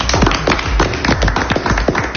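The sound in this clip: Applause from a café audience, with many quick sharp claps overlapping in a dense, lively patter that carries on steadily throughout with no voices.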